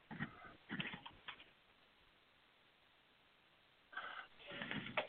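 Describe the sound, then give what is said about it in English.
Faint computer keyboard typing comes in two short runs of rapid keystrokes, one in the opening second and a half and another near the end, separated by a stretch of near silence. “as I type away on my computer here, which is always fun to listen to.”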